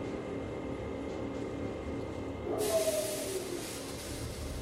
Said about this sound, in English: I think, you know, we are on the train.